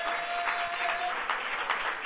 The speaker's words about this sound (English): And if you believe it, clap your hands unto God and shout with the voice of triumph.